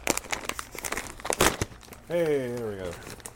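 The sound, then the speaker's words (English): Crinkling and ripping as the side of a thick plastic snack bag is torn open, a run of sharp rustling bursts, followed by a person speaking. “It's one of those really thick bags, too. Oh, I'm going to have to tear the side.”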